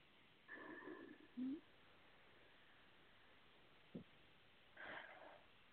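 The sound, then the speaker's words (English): Someone takes a deep breath, heard faintly: soft airy inhale and exhale noises, a short sniff-like snort, then quieter breaths separated by near silence. “I'll take a nice deep breath.”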